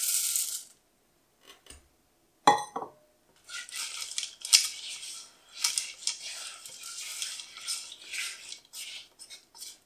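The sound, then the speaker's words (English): A utensil stirring caster sugar and chocolate as they melt in a pan, opening with a sharp metallic clatter followed by many quick scraping, clinking strokes against the pan. “we'll start giving that a bit of a mix round just to get those sugars melting. And we'll go in with the chocolate as well.”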